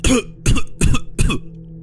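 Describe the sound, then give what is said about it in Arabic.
Hard, harsh coughing from someone being choked: four loud, rough bursts in quick succession, each separated by a brief gap. “كحيت جامد وبدأت اخد نفسي بالعافية.”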